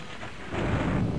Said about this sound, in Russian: Гремел гром, сверкала молния, дождь лил, как из ведра.